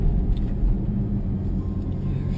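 A car drives along a road, giving a continuous low engine and tyre rumble that stays fairly even from start to finish, with no voices heard.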